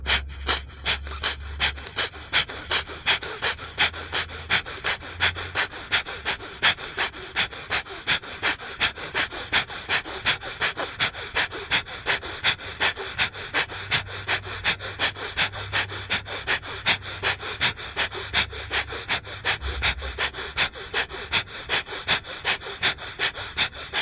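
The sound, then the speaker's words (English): Kapalabhati yogic breathing, done as alternate-nostril practice with nasika mudra: many sharp, forceful nasal exhalations in a steady, rapid, even rhythm, continuing without a break. “As preparation to pranayama, we will perform kapalabhati, alternate nostril kapalabhati, use nasika mudra and blow the air from the left to the right and right to left.”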